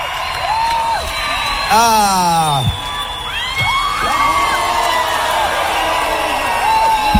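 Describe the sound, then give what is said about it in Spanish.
An Argentine concert audience cheers for a returning performer: loud, massed crowd noise topped by shrill whoops and screams that swoop up and down in pitch, with no break. “un show increíble el que dio nuestro país desde 2017 que no venía, y obviamente el público argentino lo recibió de esta manera.”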